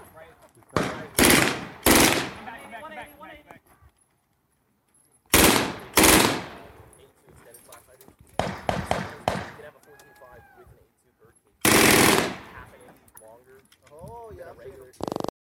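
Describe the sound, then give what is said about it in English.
PPSh submachine gun fire in a video game: several rapid, loud bursts of automatic fire separated by gaps, with a man talking between the volleys. “Ooh, got a machine gun.”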